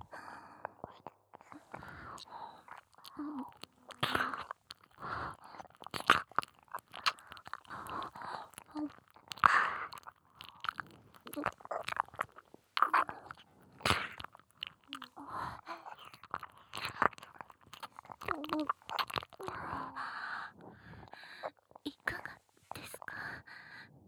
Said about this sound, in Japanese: 主人様のお耳をたっぷり舐めさせていただきます。